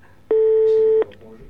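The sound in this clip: A telephone call is dialed and rings. A single steady, mid-pitched tone sounds for under a second, then stops abruptly, leaving only faint low sound.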